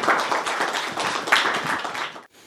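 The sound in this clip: Audience applause welcoming a panel of speakers: a dense, even patter of many hands clapping that holds steady for about two seconds, then cuts off abruptly.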